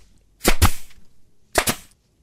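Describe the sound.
A nail gun fires twice, about a second apart. Each shot is a sharp, loud percussive burst with a quick double crack, standing alone against near silence.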